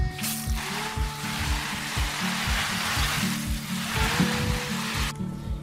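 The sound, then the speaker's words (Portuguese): Water sprays onto plants being watered, a steady hissing patter that runs loud and continuous before cutting off abruptly near the end. “Esse é o barulho de plantas sendo regadas.”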